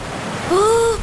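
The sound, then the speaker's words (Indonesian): Waves wash on a beach as a steady, broad rushing hiss for about a second, with a brief higher tonal sound rising over it near the end. “Pantai, seger.”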